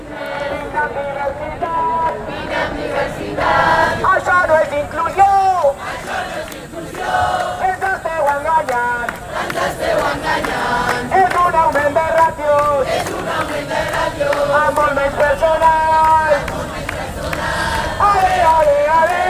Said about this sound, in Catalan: Ho tenien bastant, semblava un càntic d'estadi de futbol, era un ambient bastant festiu a l'hora de cantar tot això.